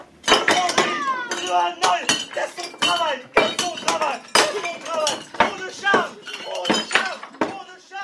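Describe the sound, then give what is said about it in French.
Pottery breaking as part of an improvised comedy act at a festival: a rapid series of sharp clinks and crashes of crockery, loud and continuous, with voices heard throughout. “Pourquoi faire la poterie Ça se casse.”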